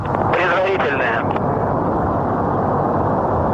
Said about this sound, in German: Turbo pumps are coming up to flight speed. And liftoff of the 94th Progress resupply vehicle en route with 2.7 tons of